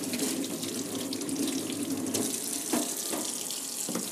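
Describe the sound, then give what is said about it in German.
Tap water runs steadily as a cucumber, carrots and coriander are washed under it in a kitchen sink, a continuous splashing stream broken by a few brief knocks. “Ich wasche mal die Gurke und die Karotten und, und meinen Koriander auch.”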